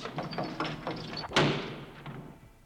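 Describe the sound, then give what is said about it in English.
A prison cell door is locked: a few light metallic rattles lead to one sharp clank, and its ringing tail fades away, fairly quiet overall. “I'll have to lock you in.”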